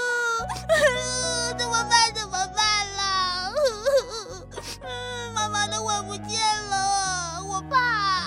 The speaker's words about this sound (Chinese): 就在这个时候，小迪比也听见有人在哭。是谁在哭啊？哦，原来是奥特利。